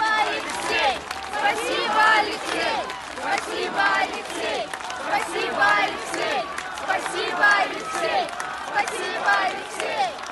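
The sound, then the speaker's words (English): A large crowd chanting thanks to Alexei Navalny at the Russian opposition leader's funeral on the outskirts of Moscow: many voices repeat a rhythmic chant in steady loud waves, with cheering mixed in. “That's the sound of crowds chanting, "Thank you, Alexei," paying tribute to Vladimir Putin's fiercest internal critic, who died in an Arctic prison last month”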